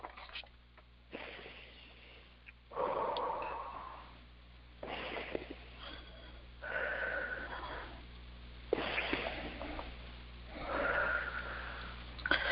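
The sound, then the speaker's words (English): Slow, deep breaths taken during a guided healing meditation. Several long, soft inhales and exhales rise and fall at a calm, even pace over a faint, steady low hum. “And three nice, deep, deep breaths.”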